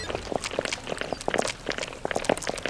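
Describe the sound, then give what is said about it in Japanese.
Human footsteps: many quick, steady steps in an even rhythm, each a short sharp tap, moderately loud and continuing throughout with no voices. “ここから人の足音を引きます。”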